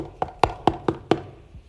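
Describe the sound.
Knocking on a door: five sharp, evenly spaced knocks, then a faint sixth after a short pause, with no voices.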